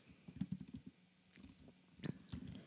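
Quiet typing on a computer keyboard while searching online, with irregular bursts of light clicking keystrokes and a brief lull midway.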